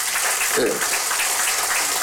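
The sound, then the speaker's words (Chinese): Audience applause at a Humanistic Buddhism talk honouring a revered master: a steady, hissing wash of many hands clapping throughout, with a brief voice rising over it. “再给大师掌声感谢。”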